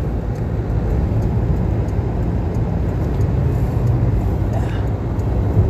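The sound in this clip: Steady road rumble from inside a moving car, a dense, loud low-frequency roar that holds constant throughout, with no distinct events or clear speech.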